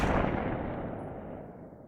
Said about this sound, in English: Suddenly, a noise startles you. What was that? You whirl around and pull the trigger.